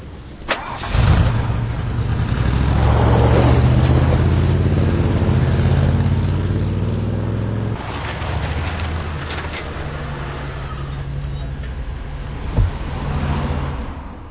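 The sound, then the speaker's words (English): A Cadillac Escalade engine cranks and catches, then runs loud with a deep rumble and throttle revs before settling to a lower, steadier drone as the SUV drives, with a brief knock near the end. “Rich bitch driving in her daddy's Escalade.”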